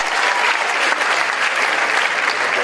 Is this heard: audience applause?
yes